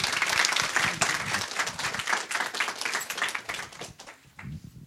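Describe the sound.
Audience applause welcoming an author to a book reading, a sustained patter of many hands clapping at moderate volume that thins toward the end.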